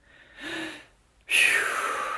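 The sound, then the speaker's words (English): A deep breath drawn in through the nose as a relaxation step: a short, soft intake comes first, then after a pause a loud, airy rush of breath holds steady to the end. “The second step is to breathe deep.”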